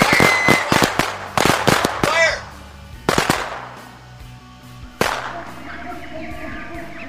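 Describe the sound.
Firecrackers popping for an Independence Day celebration in a studio: many sharp, loud cracks in quick bursts, some crackling tails, then a few more isolated bangs later on.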